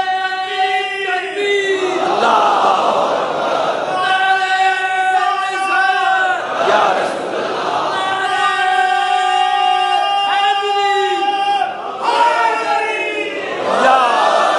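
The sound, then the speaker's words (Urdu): A crowd chants religious Takbir slogans, with loud voiced phrases from many people repeating in a steady cycle of rising and falling bursts. “ایک بار تینوں نعرے لگاؤ، تینوں نعرے لگائیے، نعرے تکبیر کے ساتھ”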